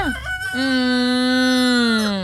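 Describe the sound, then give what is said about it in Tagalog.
A rooster crows at about half past five in the morning, one long, loud, strongly harmonic call that holds a steady pitch and then tails off, with a short, faint sound just before it. “Ga-panurok-turok na manok dapat bugtaw na kamukag naka-preparar na kamo”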